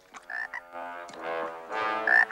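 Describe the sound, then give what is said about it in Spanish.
A toad croaks as it emerges from a teapot, giving a short run of faint, raspy, pulsing croaks of uneven length with brief gaps between them. “Adentro de la tetera asoma un sapo. El sapo salta.”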